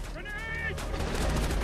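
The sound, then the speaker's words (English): Bursts of gunfire and blasts as Navy SEALs launch rocket grenades, a rapid rattling volley that grows slightly louder, with a brief voice over the start. “The SEALs launch rocket grenades.”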